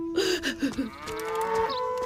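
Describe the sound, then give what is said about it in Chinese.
A large yellow ox tied to a wooden post moos in a low, drawn-out call that starts with a few short swells, then holds steady and fairly loud to the end. “拴在木桩上的大黄牛似乎也想追随顺而去。”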